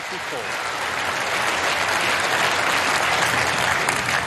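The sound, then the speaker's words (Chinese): A crowd in the Crucible stands applauds and cheers a new snooker world champion with loud, sustained clapping that builds slightly and continues throughout. “在克鲁斯堡的看台上又响起了专属吴一泽的庆祝的声音，所有人都在高呼着他的姓氏。”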